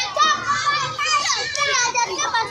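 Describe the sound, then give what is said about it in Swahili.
Children playing in a street in Mwele, Morogoro municipality: a steady mix of overlapping high-pitched young voices shouting and chattering, loud and continuous throughout. “Hapa nipo mtaa wa Mwele katika manispaa ya Morogoro. Muda ninaofika hapa, watoto wanaendelea na michezo yao.”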